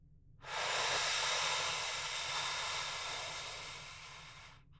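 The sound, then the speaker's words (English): A long, deep breath drawn in during a medical examination, a steady breathy hiss that starts abruptly and lasts about four seconds before slowly tapering off, with no talk over it. “And back to the other side. Big deep breath in.”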